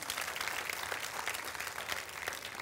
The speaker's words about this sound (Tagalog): Palakpakan nga po natin yung Panginoon.